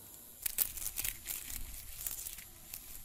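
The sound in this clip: Faint rustling among plants in a frangipani garden: a few soft, crinkly bursts of dry, papery scratching scattered across a quiet stretch, with no voices.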